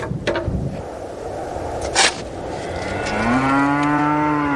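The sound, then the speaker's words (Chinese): A cow moos on a northern grassland where thin cattle and sheep survive on fodder. A few soft knocks and rustles come first, then one long, low, steady, harmonic moo fills the final second and a half. “瘦骨嶙峋的牛羊靠着草料勉强生存”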